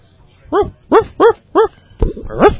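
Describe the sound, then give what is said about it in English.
A person imitates a dog howling at the moon with four short, loud yelping barks in a quick, even rhythm, followed by a longer, rougher drawn-out cry. “I'm a Yellow Dog now, see? No, that was a howl at the moon”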